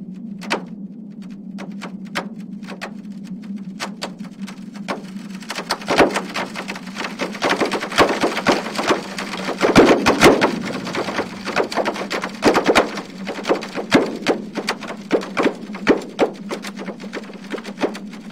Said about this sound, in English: That sound is a translation of seismic data made by the EarthTunes app, run by Northwestern University. Each of those snaps and pops represents an earthquake.